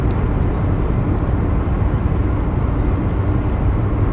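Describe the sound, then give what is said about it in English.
Continuous road roar inside a car driving on a loud road, a dense low-heavy rumble of tyres and cabin noise holding steady throughout with no clear talk. “But I always hear it when you drive. I think it's this road. It's this road, yeah. Road be loud”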